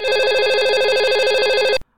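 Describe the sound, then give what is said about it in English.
A telephone rings with one loud, rapid electronic trill of nearly two seconds, then cuts off into silence. “Let me get it again, though. The phone's ringing again.”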